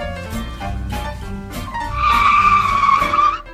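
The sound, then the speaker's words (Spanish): A car starts and pulls away in an advert sound effect: a low tonal rumble first, then a loud, high, sustained tyre squeal for about a second and a half that cuts off abruptly. “Compra un coche, el transporte del futuro. Es cómodo y fácil de usar. Muy fácil de usar. La ciudad es tuya. Sube, arranca y disfruta el paseo.”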